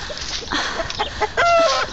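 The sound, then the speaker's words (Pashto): Chickens clucking in a yard, with a run of short clucks and a louder, drawn-out harmonic call near the end. “چرګو ستړی مو کړم، نور مې مغزه مه خورئ. اوس دی هلته لرې مې دانه درته اچولې، هغه وخورئ.”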